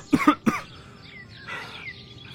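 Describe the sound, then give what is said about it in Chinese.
Three sharp coughs come in quick succession near the start, loud and throaty, followed by a quieter stretch with no further coughing. “姚文玉咳了几声”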